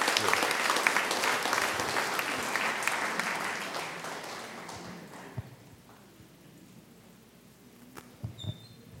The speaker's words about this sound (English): let's give a warm welcome to Pastor Denny and thank the Lord for giving us the opportunity.